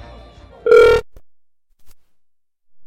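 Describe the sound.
A telephone ringing in a woman's house: a single short, loud electronic ring tone, steady in pitch, following a stretch of low background sound and followed by near silence.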